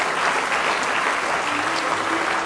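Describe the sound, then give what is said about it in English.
An audience claps hands in praise at a morning church service, making a loud, dense and continuous wash of applause that holds at an even level throughout. “Give him a good hand clap of praise if you love him this morning.”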